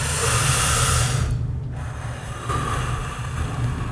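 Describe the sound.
Breathing in through the nose and out through the mouth during a guided breathing exercise. The breath rushes loudly and steadily, with a brief pause in the middle, and no talk over it.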